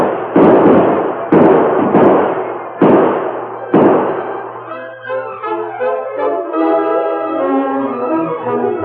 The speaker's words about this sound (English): Open fire, men. Drive them back.